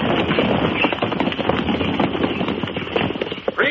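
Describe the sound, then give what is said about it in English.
Clattering hoofbeats of Spanish dragoons' horses riding up and halting at the entrance of a tiny fort in 1807, many rapid, loud, overlapping beats forming a busy, uneven rattle. “Pike's detachment of nine ragged privates stands at attention at the entrance to Pike's tiny fort as the Spaniards ride up to a halt.”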